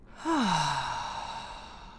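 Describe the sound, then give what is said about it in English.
A single long exhale out through the mouth during a guided breathing exercise, voiced like a sigh, its pitch falling smoothly as the breath fades slowly over about two seconds, with no talk. “We're breathing in through the nose. Go right ahead. Hold. And then out through the mouth.”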